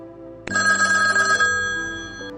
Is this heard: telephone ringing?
yes